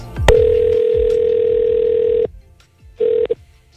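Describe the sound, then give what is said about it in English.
Telephone tones while dialing a complaint line: a click, then a steady dial tone held for about two seconds, and after a short pause one brief beep. “Are you ready? Dial it up now.”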